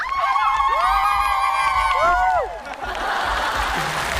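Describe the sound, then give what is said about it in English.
High, rapidly trilling ululation, a South African sound of celebration, rings out for a couple of seconds before giving way to crowd cheering and whoops. “This is a sound that we make in South Africa when there's a celebration, when we are happy, when there is good news.”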